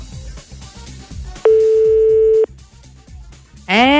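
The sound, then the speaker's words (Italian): One steady ringing tone, about a second long, from an outgoing anonymous telephone call placed live, heard over rhythmic background music. A voice starts right at the end. “Chiamiamo in diretta la prima che è stata la più veloce. Speriamo che risponda. La chiamata è anonima.”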